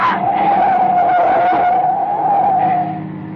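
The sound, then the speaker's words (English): A car skids on a dark road, its tires letting out one loud, sustained squeal that holds a steady high pitch for about three seconds before trailing off. “Oh, we're skidding!”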